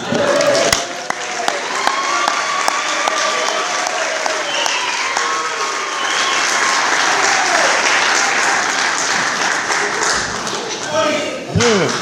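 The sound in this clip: Audience applause welcoming a speaker to the stage, a loud, dense and steady clapping that continues for the whole twelve seconds without a break.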